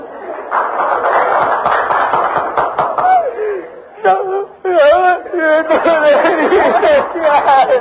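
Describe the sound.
A woman wails and cries loudly in a drawn-out, quavering voice that rises and falls in pitch, set against busy voices and chatter.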